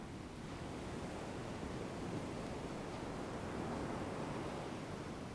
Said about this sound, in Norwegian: Bølgene som kommer inn og går ut.